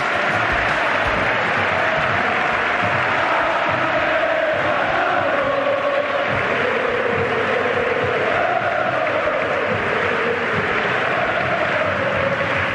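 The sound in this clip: A Real Betis stadium crowd applauds and cheers a player's farewell, a dense, continuous roar of clapping and voices that stays loud and steady throughout.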